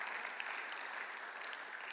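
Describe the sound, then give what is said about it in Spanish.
Applause from an audience at a church service, a dense and steady patter of many hands clapping. It is fairly soft and keeps an even level throughout, with no talk over it. “Denle un aplauso para Deanne”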